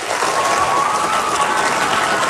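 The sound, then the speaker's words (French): Audience applause for panelists after a discussion at a live stage event: dense, even clapping from a crowd, steady and fairly loud throughout. “Je pense qu'on peut les applaudir.”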